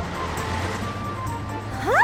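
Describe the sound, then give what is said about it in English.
A bus drives off, its engine giving a low, steady hum and rumble that holds for a couple of seconds and grows a little louder at the end. “Hey, little bus. I need to get off at the next station. Okay. We'll get going now.”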